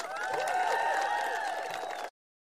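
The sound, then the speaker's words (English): An audience gives a standing ovation with steady, dense clapping and crowd noise for about two seconds, then the sound cuts off abruptly into silence. “All 12 people in the audience giving her a standing ovation.”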